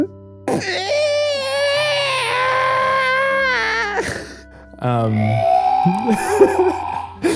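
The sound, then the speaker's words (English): A person's voice imitates a baby wailing: two long, wavering, high-pitched cries with a shaky tremble, split by a brief pause, the second cry rougher and more broken. “And the baby is confused for a moment. And then resumes wailing.”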